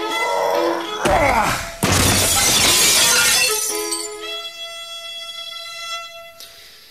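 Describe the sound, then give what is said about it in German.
A desk thrown through an office window smashes the glass in a loud crash, followed by a long spray of tinkling shards that slowly settles. A voice is heard briefly before the impact. “Schmeiß diesen scheiß Schreibtisch durch das scheiß Fenster.”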